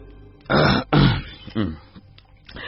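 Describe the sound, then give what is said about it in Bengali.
A throat being cleared in three gruff, voiced bursts, loud and close together, with no talk over them. “ঘরের মধ্যে নেমে এলো এক অদ্ভুত নীরবতা। সেটা কাটাতে মিখেলিস গলা ঝেড়ে বলল,”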